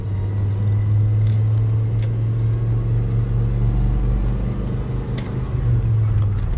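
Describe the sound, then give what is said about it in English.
A car engine drones while driving on the road and overtaking another vehicle, a low, steady hum with road rumble and a few faint clicks over it. “Sorry, I had to pass somebody. I'm driving.”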